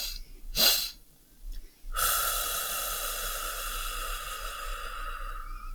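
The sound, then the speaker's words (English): A person demonstrates a breathing technique: two quick, sharp inhalations through the nose, then a long, steady hissing exhalation that continues for several seconds, with no talking. “So it's two inhalations and then a long exhalation. So it'd sound like this.”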